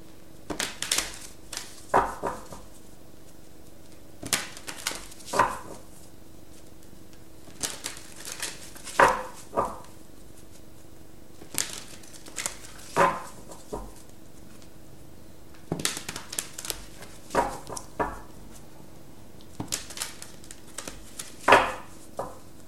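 A deck of cards is handled and shuffled during a card reading: faint clusters of crisp snaps and papery flutters come in repeated bursts with short pauses between them, without talk.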